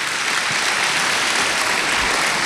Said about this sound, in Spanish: Yo creo que el Señor se merece un aplauso, ¿cierto?